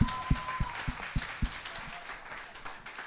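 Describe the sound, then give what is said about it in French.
Audience clapping, with a run of sharp, evenly spaced claps standing out over a thinner patter of applause, loosening and fading toward the end. “Ça mérite une clap, ça, tabarnak. Bravo.”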